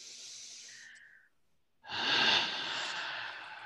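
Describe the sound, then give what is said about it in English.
A big deep breath taken during a guided prayer: a soft, airy breath, a brief silent pause, then a longer and stronger rush of breath that fills the rest. “we take a big deep breath”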